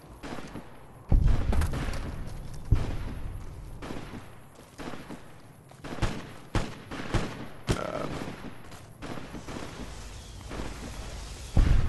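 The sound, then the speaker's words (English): Grenade explosions in the video game Fallout, thrown at a fiend on a roof: several heavy booms and sharp blasts at irregular intervals, each trailing off into rumble, over quieter game noise. “There's a fiend on the roof, and I'm having a hard time getting him with the grenades”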